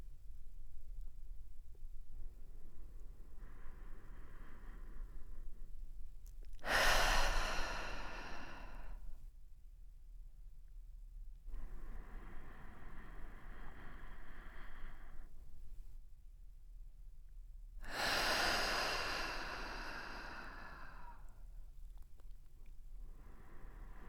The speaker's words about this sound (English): Inhale through your nose and exhale through your mouth, releasing the breath fully. Take a few more breaths in this way.